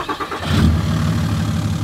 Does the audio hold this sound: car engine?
yes